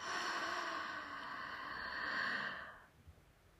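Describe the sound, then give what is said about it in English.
A long breath out through the mouth during a guided breathing exercise, an airy, steady rush lasting about two and a half seconds before fading to near silence. “Inhale completely through the nose. Holding it. And through the mouth.”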